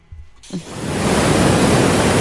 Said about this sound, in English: Pretty much a waterfall in the house.